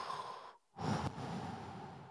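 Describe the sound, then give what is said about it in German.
A deep breath drawn during a guided group exercise with men standing eyes closed: a long, steady airy rush that starts after a brief silent pause, alone without talk. “Tun wir mal einen tiefen Atemzug.”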